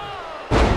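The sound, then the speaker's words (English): A wrestler's diving body splash slams down in a wrestling video game. One sudden, loud, heavy thud cuts in about midway over a steady background, then a dense burst of noise continues to the end. “Vader now goes up to the second and hits him with the Vader bomb.”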